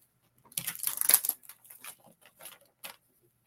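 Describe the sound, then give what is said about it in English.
A card pulled from a deck during a card reading: a faint burst of papery rustling and sliding, followed by several brief scratchy flicks and snaps, with no talk. “I'm going to pull a card for you”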